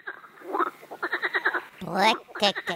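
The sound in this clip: Rapid, pulsed croaking from a frog of a loud species kept by a frog keeper, coming in a few bursts of quick rhythmic pulses with short gaps between them.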